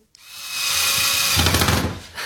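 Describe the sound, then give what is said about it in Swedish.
A power drill drives screws while a World Cup sign is assembled. One continuous whirring run of about two seconds starts abruptly and turns rougher and louder near the end. “Jag hoppas inte jag skruvar rakt ner i ditt golv.”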